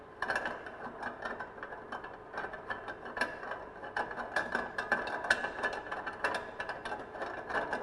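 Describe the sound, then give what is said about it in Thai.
Ratcheting mechanical clicks as a machine's tube is unscrewed and its lock loosened for cleaning; many rapid clicks run almost without pause, fairly faint. “เราต้องหมุนหลอดออกก่อนนะครับก็คลายตัวล็อกนะครับคลายตัวล็อกนะครับ”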